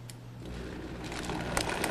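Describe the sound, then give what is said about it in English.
A blender running on low speed with ice and water gives a steady, fairly faint mechanical whir, with rapid rattling clicks mixed through it. “And we're going to put this on our nice blender. Okay, start it low.”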